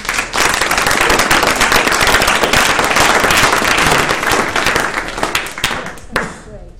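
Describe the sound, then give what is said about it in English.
Audience applause welcomes a panel at a discussion event, loud, dense clapping sustained for several seconds before thinning out and fading near the end. “So that's our panel tonight. Please give them a welcome.”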